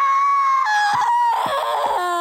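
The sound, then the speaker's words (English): A voice wails in lamentation with sustained, wavering high tones that shift pitch and swell, loud and unbroken for the whole stretch. “What are you doing? Wailing in lamentation.”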